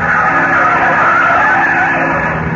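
A car speeds around a street corner, its tires giving a loud, continuous screeching roar that holds steady throughout with no voices.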